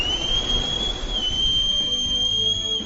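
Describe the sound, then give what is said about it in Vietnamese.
A whistle blown hard during a fight gives one long, shrill, steady tone that holds for the whole moment over a rough, noisy background. “lấy còi trong khư đỉnh dồn sức thổi”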